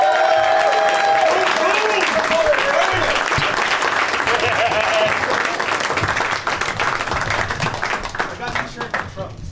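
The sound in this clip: Loud crowd applause and cheering greet three comedians walking out at a live comedy show. Shouting voices mix into the thick wash of clapping, which thins and grows more scattered near the end.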